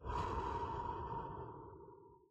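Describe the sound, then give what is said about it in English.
A deep breath taken during a guided breathing moment in a sermon, heard as one long, loud, breathy exhale that holds steady and then fades away over about two seconds. “Take a deep breath with me right now. And breathe out.”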